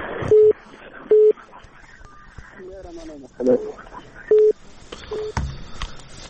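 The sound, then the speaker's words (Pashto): Telephone dialing tones: a few short beeps at one steady pitch, spaced by uneven gaps over faint background noise. “سیده بیرته زنګ وهم درته.”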